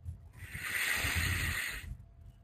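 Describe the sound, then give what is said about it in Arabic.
A deep breath drawn in to fill the chest during a guided breathing exercise: one long, steady hissing inhale of about a second and a half that swells and then stops abruptly. No talk. “المرة الثالثة والأخيرة شهيق بس بعمق، على يعني أقصى شيء، املأ رئتيك حتى تكاد الرئتين أن تنفجر. يلا شهيق،”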